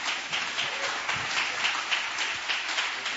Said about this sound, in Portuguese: Vamos receber o servo de Deus com palmas e glória para